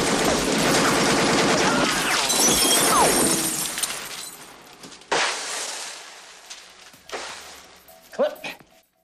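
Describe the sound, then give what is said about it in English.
Gunfire and shattering glass in a shootout from the film Tango and Cash. A dense, continuous barrage for about four seconds gives way to a few separate sharp bursts that fade out. “Lopez runs in, gun blazing at Tango. Tango takes cover behind a desk. Cash fires from a stairwell.”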